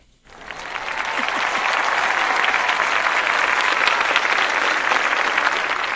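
An audience bursts into applause to welcome a guest, a dense, loud clapping that rises quickly and holds steady throughout.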